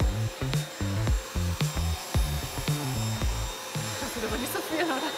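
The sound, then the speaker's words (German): A vacuum cleaner is moved back and forth over tile grout in a suction test, giving a steady, high motor whine with a shifting tone beneath someone talking. “Dreimal wird der Sauger hin und her bewegt. Dann kommt die Stunde der Wahrheit. Es wird erneut gewogen und im Vergleich zum Anfang fehlen 9,8 Gramm. So viel wurde also eingesaugt.”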